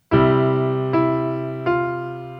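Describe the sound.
Piano C chord played as an accompaniment, left hand taking the bottom and top notes with the melody on the middle note: three struck chords, each ringing out with rich sustained harmonics that slowly decay.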